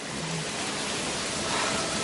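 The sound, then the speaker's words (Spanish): Water gushes from many taps into a large foam-filled bath, a steady, loud, dense rushing hiss that holds evenly throughout with no voices. “Numerosos grifos vierten agua de diferentes colores. Harry se mete en una piscina llena de espuma.”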